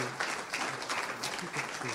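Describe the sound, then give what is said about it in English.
An audience claps for a church member with quick, fairly faint clapping from many hands, and low voices mix in beneath the claps. “And I just want to thank, give my buddy a hand clap.”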